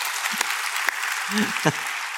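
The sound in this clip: An audience applauds with steady, dense clapping that forms a continuous wash of noise, broken by a few brief vocal fragments.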